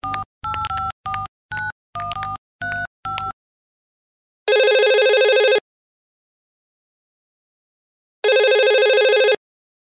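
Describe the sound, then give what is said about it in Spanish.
Touch-tone keypad beeps dial a number in a quick burst of about eight presses. After a pause come two long, bright ringing tones of an outgoing call, each about a second, separated by silence. “Voy a llamar de vuelta a Joe como lo sugirió, para confirmar el pedido.”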